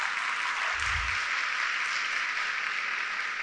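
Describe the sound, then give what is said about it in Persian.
Steady applause from a Persian-speaking audience of women clapping for themselves at a talk: a dense, continuous wash of hand claps, even in loudness throughout, with a brief low thump near the start. “اگه دوست داشتین برای خودتون دست بزنین خانما.”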